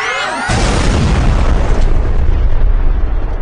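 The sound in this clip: A laser system overloads and explodes: a rising electronic whine gives way to a sudden, loud booming blast whose roaring rumble lingers to the end.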